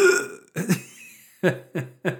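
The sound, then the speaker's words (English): A voice imitates dry heaving: a few rough, guttural gagging bursts, a longer strained retch first, then shorter spasms in quick succession, with no words. “You just dry heave next time she farts, like. Instantly, when she does it”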